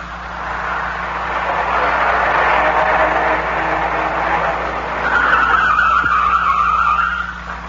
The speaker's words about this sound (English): I grabbed the wheel in the nick of time. We almost dropped off an incline. I pulled to the side and shut the motor.